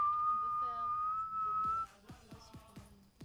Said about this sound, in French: Pendant que vous faites des sifflements, je ferai ça.